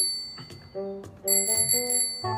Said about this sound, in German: Das ist eine Klingel!